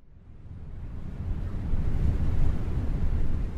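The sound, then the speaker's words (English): Wind blowing across the Antarctic polar ice cap: a steady, low, rushing roar that builds over the first couple of seconds and then holds, heavy with buffeting rumble and no voices. “Silence if the wind isn't blowing, but this is an audio thing, so we've got the wind blowing.”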